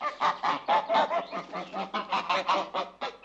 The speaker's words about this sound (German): Dann sehe ich 2 Gänse.